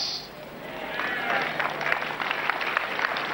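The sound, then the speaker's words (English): An audience claps, a quiet start giving way to steady, dense applause with a lively beat from many hands, sustained to the end. “So, because the way you are clapping, you are expecting me to say, it's out.”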